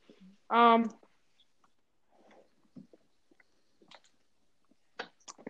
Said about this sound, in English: Sorry, I'm finishing eating a brownie right now. Yummy brownie.